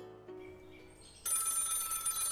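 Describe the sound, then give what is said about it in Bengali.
A telephone rings with an electronic, tonal ring that starts abruptly partway through and stays steady and moderately loud to the end, after quieter tones at the start. “বুধবার সকালে সুবোধবাবুর phone পেলেন মনোরমা”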